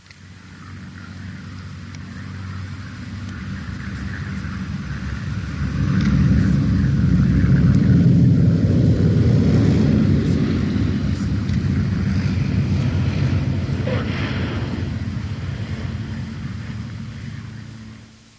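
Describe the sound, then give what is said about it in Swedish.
An aircraft comes in to land, its deep engine rumble swelling to full strength about a third of the way through, holding as a steady broad drone, then thinning out at the very end. “Ska vi lyssna till en landning med Sally B.”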